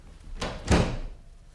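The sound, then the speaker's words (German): A door being shut: a lighter bump followed by a heavier, solid low thud, short and alone with no talk. “ich mach die Tür zu”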